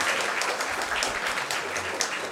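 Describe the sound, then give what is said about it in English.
An audience applauds long-serving award recipients standing to be honored, giving steady, continuous clapping at a fairly soft level with no distinct voices. “我哋一齊拍手。 Let's applaud.”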